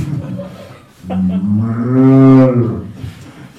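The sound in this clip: A voice mimics a cow mooing while chanting Madhava, sustaining one long, low, droning tone that swells in the middle and then fades.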